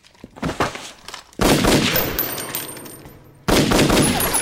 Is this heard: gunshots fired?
yes

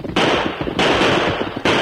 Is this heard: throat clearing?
no

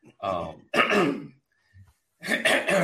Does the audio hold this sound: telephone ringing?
no

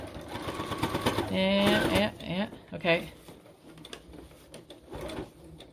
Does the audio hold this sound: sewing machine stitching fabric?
yes

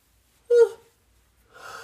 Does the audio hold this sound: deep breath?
yes

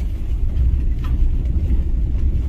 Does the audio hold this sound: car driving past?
yes

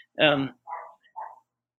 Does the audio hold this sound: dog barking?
yes

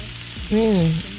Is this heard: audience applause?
no

